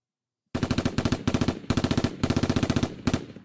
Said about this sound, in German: Das klang gerade sehr nach Counter-Strike irgendwie. Ja. Nicht vernünftig. Ein M16.